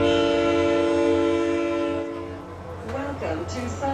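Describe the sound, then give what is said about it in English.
A commuter train horn sounds during a morning commute as one steady, chord-like blast lasting about two seconds. It then drops away to a low rumble of the train, and a voice briefly surfaces near the end. “Nesper rolled his bike into a pretty crowded train car”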